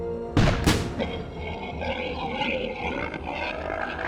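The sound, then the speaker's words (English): Two deafening blasts from a shotgun fired with both triggers, two sharp booms in quick succession followed by a long rumbling, roaring tail that slowly fades. “he raised both his shotgun hands and pulled the triggers, releasing a deafening blast that obliterates the bredizen.”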